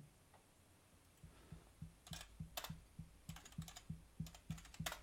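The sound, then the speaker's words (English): Typing on a computer keyboard to post in a live chat: a few short bursts of clicking keystrokes over a steady, evenly spaced low ticking pulse, with no voices. “If I go over to Twitch, I can actually just type in that chat.”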